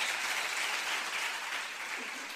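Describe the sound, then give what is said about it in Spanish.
Sustained crowd applause at a flower-battle parade greets a group and its floats. Dense, even clapping continues throughout and eases slightly toward the end. “os pido la primera ovación para el grupo Golayu”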